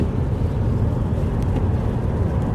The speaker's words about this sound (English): Like, I'm literally driving down the highway right now. Driving down the highway, talking to you all to make sure that you all get this episode.